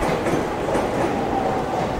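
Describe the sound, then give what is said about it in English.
A train rolls through a busy station with many tracks, a steady, loud rumble of wheels and carriages with faint clickety-clack running throughout, and no voices. “That's our train going in the other direction.”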